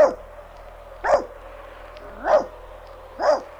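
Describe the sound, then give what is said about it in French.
A dog barks on command in a children's story: short, loud barks spaced about a second apart over a faint low hum. “Aboie très fort.”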